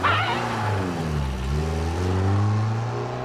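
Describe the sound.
A car engine drives off with a steady, buzzing, harmonic drone. Its pitch dips briefly midway, then climbs and holds as the vehicle pulls away. It sounds loud and continuous, with no talk.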